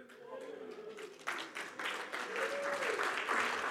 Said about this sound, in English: I don't know why you're clapping for that.